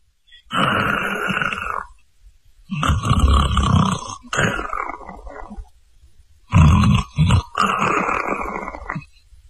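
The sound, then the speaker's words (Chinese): Snoring and heavy breathing come from people sleeping on a city wall: loud, rough, rasping snorts and grunts in several long bursts separated by short pauses. “这功夫隐约约就听见城上有呼吸的声音，还有的人打呼噜。”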